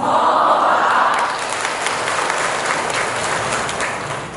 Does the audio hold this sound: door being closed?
no